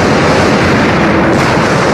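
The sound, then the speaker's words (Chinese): Artillery shelling explodes and destroys the buildings of a village, which break apart and catch fire. The sound is a loud, dense, continuous roar of rumbling blasts with no separate, distinct bangs. “目光中可以看到的青花寨建筑不久相继涌起巨大的炸烟，建筑物四分五裂，燃起大火。”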